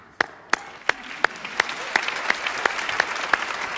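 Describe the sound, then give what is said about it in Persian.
An audience applauds at a Quran recitation gathering. About ten sharp, evenly spaced claps land in unison over a continuous bed of scattered clapping that grows fuller as it goes. “یه بار دیگه تشویقش کنیم.”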